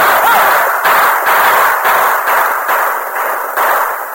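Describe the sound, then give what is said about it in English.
Gunfire from riders' guns as mounted cowboys charge a gang on an open plain: many loud shots in quick, regular succession, each with a harsh noisy tail, blending into a continuous rattling barrage. “Then the point riders and the Indians rode with blazing guns to face the Corey gang.”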